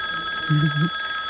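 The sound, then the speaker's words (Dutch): Electric bell ringing in a parliament chamber: a steady, continuous high-pitched ring that holds unbroken through the whole short clip. “Als de bel is afgelopen”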